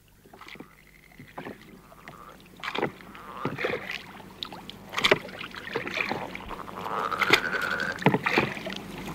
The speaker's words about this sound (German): Wollen wir jetzt zum Wasser? Schwimmen? Nein, mit dem Boot.